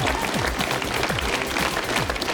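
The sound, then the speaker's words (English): Applause from staff and ministers gathered outside in sunshine as a departing prime minister walks out: dense, steady clapping holds an even loudness through the whole stretch, with no voices standing out. “He walked out to applause and hand in hand with his wife.”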